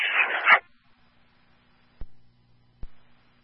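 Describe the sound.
A tracking dog working a trail near a creek lets out one short, noisy bark or yelp, then falls quiet, with two faint, sharp clicks following in the stillness.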